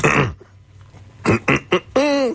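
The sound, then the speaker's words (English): A person hiccups: three short, sharp voiced bursts come in quick succession between stretches of talk. “I've never had the hiccups on the air in my life.”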